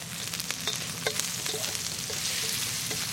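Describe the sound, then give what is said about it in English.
Skinless sausage meat fries in a pan with a steady, fairly quiet crackling sizzle. Scattered sharp pops and spits run through it, and no one speaks. “render the sausages really to a golden color. The sausages are making the sauce.”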